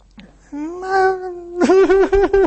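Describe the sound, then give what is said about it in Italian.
A woman crying over the phone: a long, sustained wailing note, then a run of short, rhythmic sobbing pulses, loud and with no other voices. “Allora si è rimessa a piangere.”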